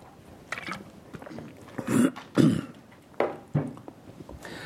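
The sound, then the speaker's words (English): Throat clearing from someone reading a scripture passage aloud, with a few rough, raspy hacks and coughs separated by short pauses and no words spoken. “It's a wonderful time for my throat to act up.”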